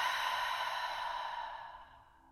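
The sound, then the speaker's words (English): A deep, slow breath during a guided meditation, heard alone as a soft, steady breathy hiss that gradually fades away. “So let's just take a breath in and a breath out.”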